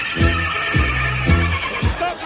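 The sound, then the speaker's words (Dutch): A horse standing in a hallway whinnies, giving four short, falling, nasal pulses in quick succession over a steady buzzing tone. “dat is mijn paard, hè. Die staat hier in de gang natuurlijk.”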